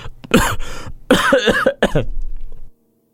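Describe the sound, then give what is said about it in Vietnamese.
A man coughs in a harsh, repeated fit: several rough, loud bursts follow in quick succession, heard alone with no other sound, then stop abruptly. “Một câu còn chưa nói hết, gã đã lại dặn cổ mà ho.”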